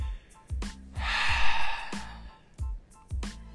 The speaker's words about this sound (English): So just go ahead and exhale.